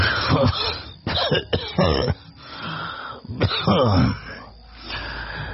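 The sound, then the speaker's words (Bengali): An old man coughs harshly in a few rough, raspy bursts with throat clearing and wheezy breaths between them. The coughs are loud and separated by short pauses. “বুড়ো মোংলা খক খক করে কেশে জবাব দিল”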